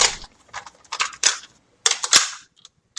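Plastic clicks and clacks of a blank cassette tape being put into a tape recorder: a series of sharp, irregular mechanical snaps, ending in a louder cluster of knocks, with no talk.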